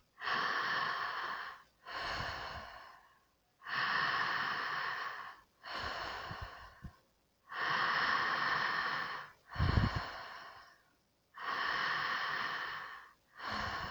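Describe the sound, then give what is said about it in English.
Deep breathing in and out through the mouth during a pelvic breathing exercise: long, airy breaths alternate in a steady rhythm, each lasting one to two seconds with short pauses between, clear and prominent with no talking. “Let's begin inhaling to the pelvic area and exhaling from the pelvic area.”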